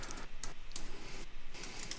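Faint typing on a computer keyboard, with quick, irregular light clicks and taps pattering along at a low level.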